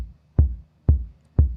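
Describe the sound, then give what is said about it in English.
Simple four-on-the-floor beat from a TR-808 drum machine kit: deep, booming electronic kick thumps at an even, moderate pace, three full hits after the fading tail of an earlier one, each with a short decaying boom. “This is the TR-808 kit, which is quite popular in dance music.”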